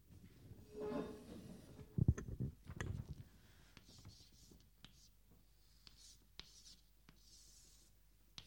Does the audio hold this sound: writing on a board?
yes